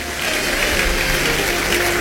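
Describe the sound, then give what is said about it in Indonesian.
A church audience applauds, a continuous, loud rush of dense clapping with no voices. “Beri tepuk tangan bagi dia.”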